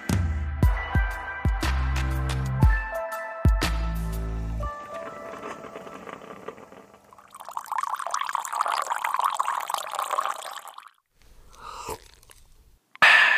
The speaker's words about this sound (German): Ja, das ist ein schönes Geräusch, oder? Wenn bei mir morgens der erste Kaffee durch die Maschine läuft, dann kann der Tag beginnen.